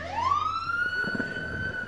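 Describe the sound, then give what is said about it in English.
An ambulance siren passes on a city street, its loud wail rising sharply and then holding a high, steady tone over a low rumble of traffic. “Let it pass. Bye-bye. Thank you. There are a lot of ambulances that go by here. And emergency equipment.”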